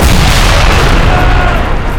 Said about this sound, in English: When the blockhouse went up, it leveled everything within a 500-foot radius.